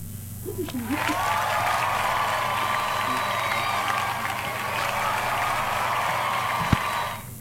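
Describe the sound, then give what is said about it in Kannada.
Applause for listeners who answered a quiz correctly: a steady, dense wash of clapping with crowd cheering that holds at an even level for about seven seconds. “ಸರಿಯಾದ ಉತ್ತರವನ್ನು ನೀಡಿದಂತಹ ನಮ್ಮೆಲ್ಲ ಕೇಳುಗರಿಗೆ ಪ್ರೀತಿಯ ಚಪ್ಪಾಳೆ.”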